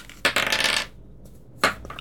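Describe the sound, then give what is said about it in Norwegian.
A die rolled and landing during a board game: a sharp clattering rattle, then a brief pause, then a second shorter clatter as it settles. “Der står terningen på nummer fem.”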